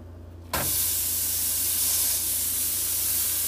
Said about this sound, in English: so this is the first patty going into the pan.